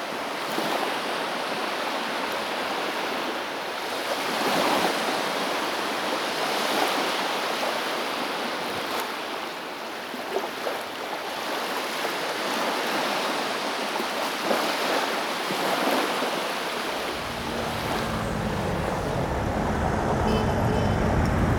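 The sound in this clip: Sea waves make a steady, broad washing roar with slow swells that runs unbroken for the whole stretch. A low rumble joins underneath near the end.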